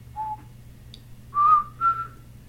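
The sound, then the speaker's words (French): Clowns whistling off-key: three short whistled notes, the first brief and faint, the last two louder and slightly higher, with a low steady hum beneath. “Puis les clowns ont commencé à siffler faux,”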